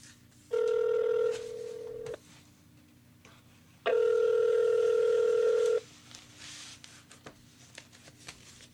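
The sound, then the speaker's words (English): Ringback tone on a call to the Avalon Hill toll-free number: two long, steady electronic rings separated by a pause, over faint line hiss and a few small clicks. “we're going to call this Avalon Hill toll-free number and just see what happens.”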